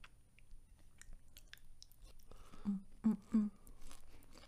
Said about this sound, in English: This pod is just going to be eating ASMR.